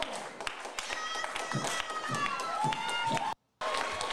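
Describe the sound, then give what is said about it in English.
A crowd at a public meeting cheers and claps for a protester, a dense, noisy mix of scattered claps, shouts and overlapping voices sustained throughout. “And you'll notice that that guy's being pretty much cheered by everybody that's in capacity outside of the politicians that are in attendance.”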